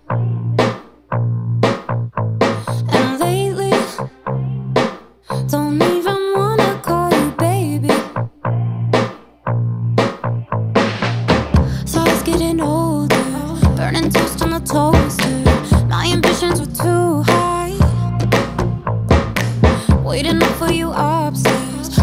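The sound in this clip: A female pop singer's new single plays loudly, with sung vocals over a steady driving beat and sustained backing, the arrangement filling out further about halfway through.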